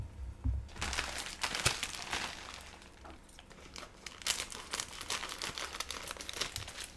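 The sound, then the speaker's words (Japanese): Crinkling plastic as an instant champon noodle package is torn open: a continuous, fairly quiet rustle with sharper crackles scattered through it. “じゃあちょっと早速開封していきましょうか開封の儀”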